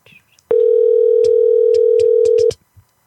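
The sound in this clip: A telephone ringback tone during an unanswered prank call: one steady, loud two-second tone with a few faint clicks over it, then quiet.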